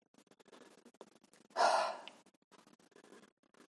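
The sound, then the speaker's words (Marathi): One forceful, sigh-like breath is pushed out during a breathing exercise. It is brief and fairly loud against faint, quiet surroundings. “सुस्कारा टाकल्यासारखा बाहेर टाकायचा आहे श्वास घ्या असं तीन वेळा करा श्वास घ्या”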